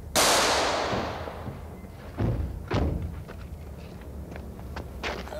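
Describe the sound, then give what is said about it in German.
Gunshots ring out in a German radio crime drama shootout with police. A loud first shot decays slowly, two sharp reports follow, and several fainter thuds come after them. “Aufpassen, Herr Kommissar! Marco schießt!”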